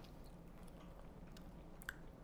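Soft, wet chewing of stuffed crust pepperoni pizza with cheese and dough, very faint and continuous, with a small click near the end and no talk.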